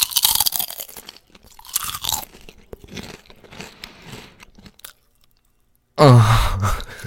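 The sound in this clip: Pickle chips crunch and a chip bag crinkles right at the microphone, with rapid irregular crunches for several seconds. After a short silence, a loud voiced sound follows.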